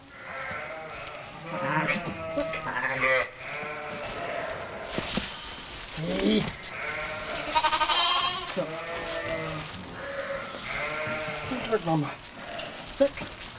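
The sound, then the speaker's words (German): A newborn lamb and sheep bleat during a triplet birth on a sheep farm during lambing season. Many wavering, nasal bleats rise and fall throughout, with a person speaking at times. “Das erste Lamm ist schon da.”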